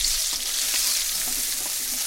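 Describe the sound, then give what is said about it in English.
Onion, ginger and lemongrass sizzle as they are stir-fried as flavourings, a loud, dense, steady hiss of frying with faint stirring, and no voices. “Then the flavorings are stir-fried. And then you must cook this onion, ginger, and the lemongrass.”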